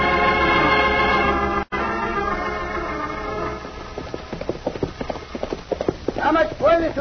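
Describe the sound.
Horses gallop with quick, uneven hoofbeats that grow denser and louder over the second half. A sustained tonal backing fills the opening seconds.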